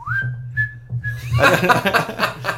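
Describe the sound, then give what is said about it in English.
A person whistles to imitate a dentist whistling while pulling a tooth: a few short, high, steady notes, followed by voices. “the dentist started laughing, right? And started whistling.”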